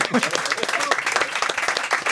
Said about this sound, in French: S'il vous plaît, on applaudit.